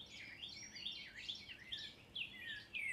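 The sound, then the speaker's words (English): A bird sings in repeated high, warbling chirps and short trills. The phrases come one after another in a faint, quiet setting with no other sounds. “engage with the bird that is singing at this moment?”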